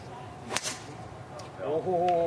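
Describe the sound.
A golf club swing at a charity golf tournament: one quick whooshing swish, then a voice a second later.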